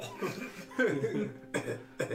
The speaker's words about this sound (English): Everyone coughing except me.